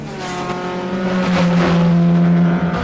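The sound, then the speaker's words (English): A trio of black compact cars speed up behind a truck on a motorway at night. Their engines make a loud, continuous droning hum with a steady harmonic tone and a broad rush of road noise. “A trio of black compact cars with green neon underlights speed up behind the truck.”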